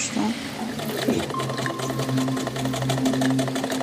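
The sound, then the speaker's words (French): A sewing machine runs as its wheel turns, giving a steady mechanical whir with faint rhythmic clatter throughout, while a voice speaks over it. “Quand j'actionne la roue de ma machine à coudre, plein de pensées m'assaillent.”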